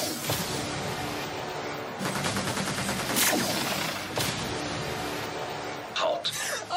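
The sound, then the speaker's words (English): A laser weapon fires a few sharp, noisy bursts over a continuous rough, crackling background, each blast cutting in suddenly and decaying quickly. “He's firing a laser.”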